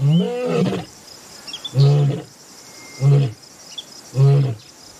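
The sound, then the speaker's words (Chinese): Lion roaring in Katavi National Park: one long, deep, moaning call opens, followed by three shorter, evenly spaced grunting roars, loud over a steady thin chirr of insects. “而他不知道，另一头狮子也在慢慢靠近幼崽。”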